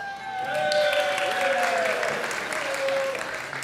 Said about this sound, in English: Don't applaud, throw money.